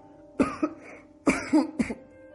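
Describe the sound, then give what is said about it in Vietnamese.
Two strong, deliberate dry coughs, each a forceful burst broken into a few quick pulses, separated by a short pause over faint background hum. “Thế Huân cố ý ho khan hai tiếng thật là mạnh”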